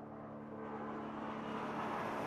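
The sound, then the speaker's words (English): An airplane near an airport roars low and steady while landing or taking off, a faint, broad rumble that holds evenly throughout with no talk over it. “Hear that? I live close to the airport. I don't mind that. I like to think of all those people travelling around the world, having adventures. I like the sounds of the planes landing and taking off.”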